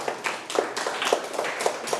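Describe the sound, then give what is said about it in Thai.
A group of classroom students claps for themselves with scattered, uneven claps at a moderate, fairly even level. “ก็คือกลุ่มที่1ปรบมือให้ตนเอง”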